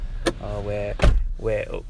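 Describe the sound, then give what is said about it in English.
A door closes with a single dull thud, surrounded by softer voiced tones before and after. “close the door.”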